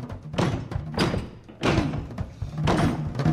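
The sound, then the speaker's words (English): A broken door is tried repeatedly, giving several heavy thumps and rattling knocks in an uneven rhythm, each burst loud and dull with brief quieter stretches between. “He tries the broken door.”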